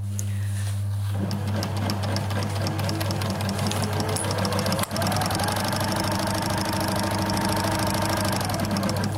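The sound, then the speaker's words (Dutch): A sewing machine runs with a continuous mechanical whir over a low, steady humming drone. Its fast stitching rhythm carries on evenly for about nine seconds and is broken once by a brief click midway. “Fijn is het geluid van de naaimachine.”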